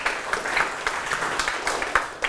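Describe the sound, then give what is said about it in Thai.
Children clapping in a classroom: a scattered run of many sharp, irregular claps at moderate volume, with no talk over them. “เก่งมากปรบมือให้ทุกคนเลยครับลูก”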